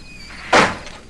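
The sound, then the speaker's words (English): Office door being opened: a single soft, hollow thunk midway through, fading quickly into a faint steady background hiss. “He stares at the door to Andy's office, then walks over and opens it.”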